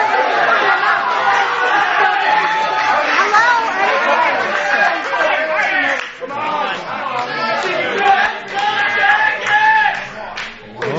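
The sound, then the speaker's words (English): Columbus Blue Jackets hockey fans react while watching the draft lottery. Many voices overlap in loud, steady chatter with scattered shouts and whoops, and there are a couple of brief dips in level. “a collection of Columbus Blue Jackets fans watching the lottery last night, and it sounded a little something like this.”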